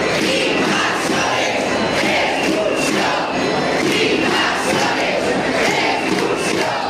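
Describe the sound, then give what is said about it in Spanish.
A crowd at a protest gathering in Ciudad Real, Spain, shouts continuously, making a loud, dense wall of overlapping voices that never breaks or fades. “Sonido recogido en la concentración de Ciudad Real.”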